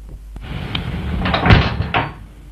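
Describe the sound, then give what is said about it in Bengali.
A door is shut, giving a few dull knocks and bangs, with the loudest thud near the middle and another just after. No voices are heard. “দরওয়াজা বন্ধ করলে কেন? খোলো দরওয়াজা, দরওয়াজা খোলো”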